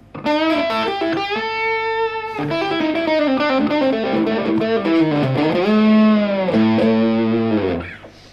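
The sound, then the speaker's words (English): An electric guitar plays through a heavy distortion effect, producing a loud, buzzing, harmonically rich tone. It runs through a series of sustained notes and slides with sharp attacks, and no one speaks over it. “That's quite a good bit of distortion.”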